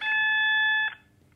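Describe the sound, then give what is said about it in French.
A single steady electronic beep from a telephone answering machine, a bright harmonic tone held for under a second, then cut off into near silence. “Puis elle tapote le 3103 à la place, ce qui a pour action d'interroger le répondeur.”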